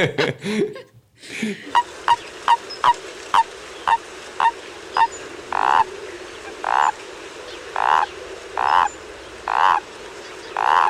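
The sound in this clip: Small tree frogs croaking: many short, nasal calls in a regular series, the later croaks fuller and louder, with no talk over them.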